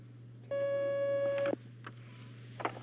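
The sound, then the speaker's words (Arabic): A telephone line tone sounds as a caller's call is taken during a religious question-and-answer session: one steady, bright tone lasting about a second over a constant low hum, followed by a few faint clicks. “ناخذ مكالمة يا أخي.”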